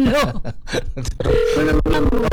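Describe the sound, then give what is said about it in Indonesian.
Telephone ringing on a long-distance call to America: a steady, buzzy ringback tone holds through the second half, mixed with louder, wavering voice-like sounds. “Ini baru nyambung. Ah. Ya maklum kan sambungannya jauh ke Amerika. Betul. Iya kan? Sebab mudah-mudahan ini segera diangkat. Belum.”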